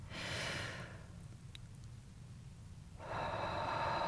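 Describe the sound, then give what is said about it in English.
A deep human breath heard as two long, soft, airy rushes of air with a quieter pause of roughly two seconds between them. There is no talk. “And I invite you to take a breath.”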